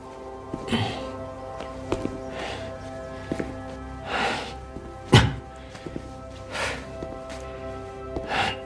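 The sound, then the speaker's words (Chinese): Footsteps climbing a staircase to the third floor: a steady series of dull thumps, roughly one per second, over a faint constant tonal hum. “休息完毕，我正在往三楼走。”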